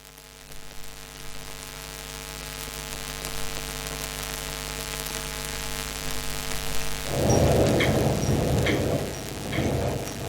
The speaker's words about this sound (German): Oh, es regnet, hey. Ja, das hast du Pech gehabt, muss bei Regen rüberlaufen.